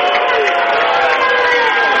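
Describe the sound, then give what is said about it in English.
Basketball crowd reacting to a referee's travel call, a loud, continuous burst of shouting and jeering voices that stays dense and intense throughout. “Well, that's probably the best reaction we've had out of the crowd all week. Yeah, the Angoon crowd didn't like the call.”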